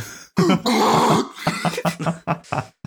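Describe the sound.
A voice imitates a deep growl, a loud, rough, gravelly rasp that breaks into a few shorter grunting bursts, with no other sound.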